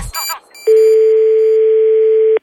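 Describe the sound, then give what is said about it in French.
A telephone is hung up with a short clunk and brief noise, then a steady, even dial tone holds at one pitch for nearly two seconds before cutting off sharply. “C'est bon, allez, je raccroche.”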